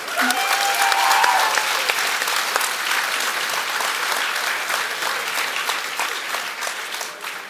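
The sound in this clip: Sustained audience applause at a live stage show, a dense, steady wash of many hands clapping that holds loud throughout and eases off only slightly toward the end.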